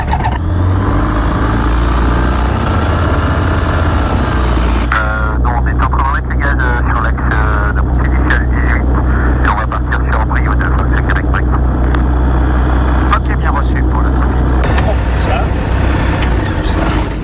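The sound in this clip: A light aircraft engine starts up after a preflight check, its loud, droning roar shifting into a steady, throbbing hum after about five seconds while people talk over it.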